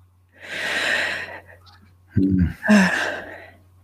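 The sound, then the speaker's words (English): Deep breaths taken during a pause in conversation: a long, airy breath, then a second breath with a soft voiced, sighing exhale, all over a faint low steady hum. “maybe it's a good moment to have at least 10 seconds of a few deep breaths.”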